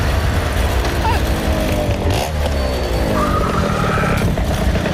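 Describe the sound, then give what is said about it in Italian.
A vehicle engine with a bad carburettor accelerates with a rough, sputtering drone. A tone climbs midway through, and the noise stays loud and continuous throughout. “Devo fare qualcosa per questo carburatore che fa una buccia tremenda.”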